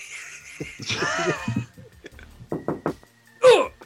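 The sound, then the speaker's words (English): A voice imitates knocking on straight drywall, a quick run of sharp, dry knock sounds and then a louder, harder bang, after some breathy, wheezing vocal noises. “I'd start with the textbook knock that everybody expects.”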